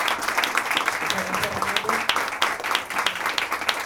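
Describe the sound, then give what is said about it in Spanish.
Audience applause at a poetry reading with live sound art: dense, steady clapping fills the whole stretch at an even level, with a voice faintly mixed in beneath it. “Si me pueden acompañar, ayudar con un aplauso a Renato Ortiz.”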